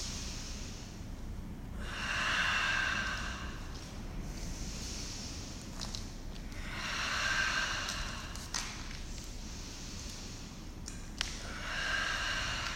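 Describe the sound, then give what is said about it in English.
Deep breathing during a yoga session, airy breaths in and out that swell and fade in a slow, steady rhythm against a soft constant hiss. “Breathe in, breathe out. Inhale, breathe it all out”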